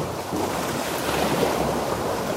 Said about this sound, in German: lauschen dann, wie die Wellen rauschen.